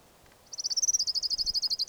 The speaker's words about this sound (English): Orange ground warbler number one.